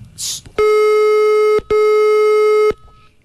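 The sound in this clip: Telephone tone heard while dialing: two long, loud, steady buzzy tones, each about a second, separated by a short gap and preceded by a brief burst of noise.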